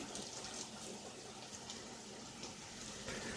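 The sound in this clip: Faint, steady rushing of water at a kitchen sink as cooked pasta for puttanesca is drained and shaken out, a continuous hiss without clear breaks.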